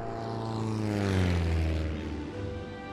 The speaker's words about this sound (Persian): اون و پسرش از هواپیما برای دنبال کردن گله ها در افق استفاده کردن.